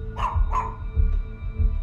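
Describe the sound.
A dog barks in short, sharp bursts. Two clear barks come close together, followed by a couple of fainter ones over a low, steady rumble.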